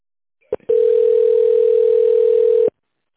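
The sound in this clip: A steady, single-pitched telephone tone plays while a call is transferred to an operator. It follows a brief click and holds loud and unbroken for about two seconds before stopping.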